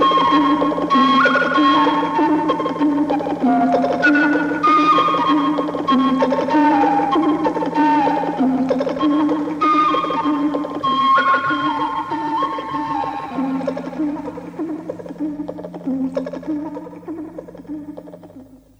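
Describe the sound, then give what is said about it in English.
Electronic tones from an iPad app simulating the vintage Oramics music machine: layered, sustained synthetic notes step through shifting pitches in a continuous texture that thins and fades out at the end. “The sounds you can hear now have been produced with an iPad app developed to simulate the Oramix machine.”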